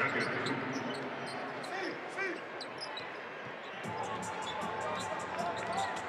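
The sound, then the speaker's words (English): A basketball is dribbled on the court during a professional game, with repeated rhythmic bounces beneath steady crowd noise and a commentator's voice. “110-92, Clarkson dribbling.”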